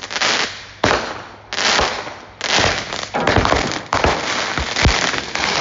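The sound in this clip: A firecracker that tipped over sideways goes off in a loud, crackling volley: many sharp bangs burst in quick succession at an irregular rhythm, each with a harsh, bright snap, with no voices over them.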